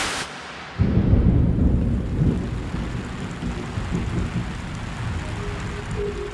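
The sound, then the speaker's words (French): Fine rain falls on Kampala, Uganda, on a Monday morning. A sudden low rumble of thunder breaks in near the start, then a steady, even hiss of rain continues underneath it. “Le lendemain matin, lundi 28 juin, une pluie fine s'abat sur Kampala, la capitale de l'Ouganda.”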